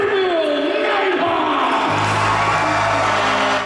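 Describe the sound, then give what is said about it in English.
Loud crowd cheering and shouting at a hockey rink celebration welcoming home the Niverville Nighthawks after their national championship win. The roar is dense and sustained, holding steady before easing slightly at the very end. “More than 100 people in the team rink last night celebrating their national champions and welcoming back the Niverville Nighthawks after their Centennial Cup win in Prince Edward Island.”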